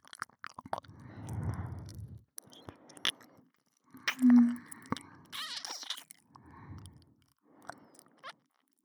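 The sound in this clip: Mouth sounds of someone chewing and nibbling on an ear: soft, wet, squishy bites and smacks in short bursts with pauses between, fairly quiet and close.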